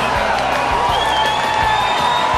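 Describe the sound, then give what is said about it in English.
An ecstatic crowd celebrates a team's first victory of the season, scoreboard at 4-1, with a dense, continuous roar of cheering and whistling and scattered dull thuds underneath. “The crowd are ecstatic.”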